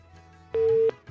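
Telephone busy tone after a phone-in call is cut off: one steady, mid-pitched electronic tone that holds for about a third of a second over faint line hiss.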